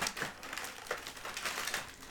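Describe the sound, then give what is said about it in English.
Crinkly rustling of a container of double-stuffed cookies being opened, a continuous run of soft, papery crackles with a few sharper crinkles, with no talk. “Apologies for the rustling as I open the container.”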